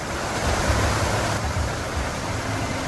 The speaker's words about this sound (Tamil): காட்டாற்று வெள்ளத்தின் பேரிரைச்சல். அப்பப்பா, காதுகளை மூடிக்கொள்ளுங்கள்.